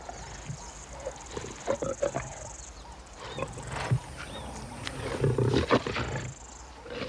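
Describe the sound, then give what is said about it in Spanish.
Lions roar and growl while feasting, with many low, rough bursts and grunts rising and falling at a moderate level. “Los leones prosiguen su festín.”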